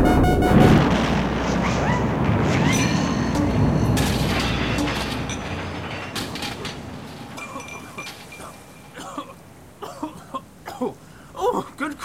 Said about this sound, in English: An explosion, perchance? Oh dear, what a calamity!